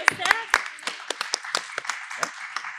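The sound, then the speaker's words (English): Scattered handclaps from an audience at an evening panel event, sharp and irregular rather than a full ovation, mixed with voices talking over them. “So many claps.”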